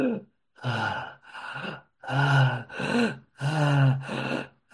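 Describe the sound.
A voice imitates the ragged, rattling dying breath of a woman with a bullet lodged in her throat: a series of strained, voiced gasps and groaning breaths in uneven bursts, with short pauses between them.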